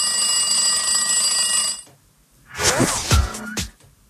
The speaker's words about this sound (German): Aha. Das Telefon, ja?